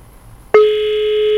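Telephone ringing with no answer on an international call to an office in Spain. After half a second of near silence, a single steady buzzing ring tone starts abruptly and holds, loud and unbroken, to the end.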